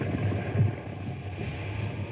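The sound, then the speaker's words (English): Steady wind noise and a low rumble from a barge easing up onto a riverbank while carrying a trailer, with a brief heavier thump early on and a continuous windy roar throughout. “We're going to ease this barge up on the riverbank so she'll stand steady.”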